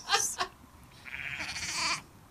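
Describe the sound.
Lambs bleating in a few wavering, nasal cries: a short pair of calls at first, then one longer, sustained bleat that holds steady before cutting off.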